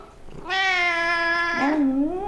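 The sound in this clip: A domestic cat meows alone: one drawn-out, steady, clearly pitched meow that then drops and wavers into a lower, trailing tail.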